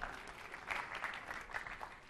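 Applause from an audience after a joke and a working code demonstration: soft, steady clapping that stays faint throughout, with a few slightly louder swells.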